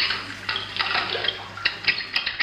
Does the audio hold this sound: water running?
yes